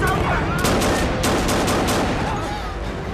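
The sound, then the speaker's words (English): Pistol gunshots in a film action scene on a pirate boat's deck: a rapid series of sharp, loud cracks over a dense, continuous background. “He pulls a gun from his pocket and shoots them.”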